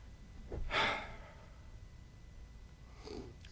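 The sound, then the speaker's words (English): A deep breath taken during a sermon: one soft, drawn-out breath swells and fades, followed later by a fainter second breath, with no talk. “Now, let's just take a breather for just a minute. Go ahead, take a deep breath.”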